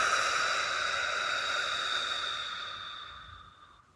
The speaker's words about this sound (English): take one more deep breath in through your nose and exhale through your mouth.